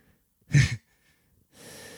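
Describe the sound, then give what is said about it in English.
Heavy breathing from someone out of breath: one short, sharp, forceful breath, a brief silence, then a softer, steady airy breath. “I'm so out of breath right now.”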